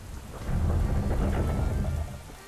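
Steady rain falls outside a castle at night while thunder rumbles. The deep, loud rumble swells early, rolls on beneath the hiss of rain, and eases off near the end.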